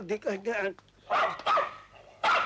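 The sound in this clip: A dog barks during a civil wedding ceremony, with a few sharp barks mixed in among people talking.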